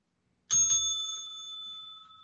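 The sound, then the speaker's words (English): A bell rung to start a tag team wrestling title match: a single bright, high metallic ding strikes sharply and rings out with a slowly fading tone, with no talking. “Ring the bell.”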